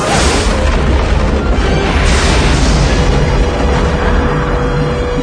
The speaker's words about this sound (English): He's about to destroy the statue.